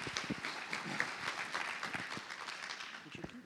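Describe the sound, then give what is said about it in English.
A church audience applauds a missionary couple as a pastor is welcomed, a quiet, steady patter of many hands clapping with talk over it. “So one more time, put your hands together, show your love for the Heaths, and I welcome Pastor Ryan.”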